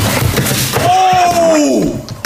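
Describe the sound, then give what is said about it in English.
Ice is struck and broken to free a frozen item, giving loud, sharp knocking and cracking impacts, with a drawn-out tone sliding downward between the blows. “We have a lot of items to break out of ice cubes today, so let's keep breaking.”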